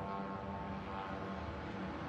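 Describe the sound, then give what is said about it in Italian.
Steady engine drone of a Russian kamikaze drone flying overhead in Kyiv during a massive attack: a continuous low buzzing hum that holds an even level throughout, fairly faint, with no voices. “come questo in cui un drone kamikaze gli passa sopra la testa. That's a Russian drone right there.”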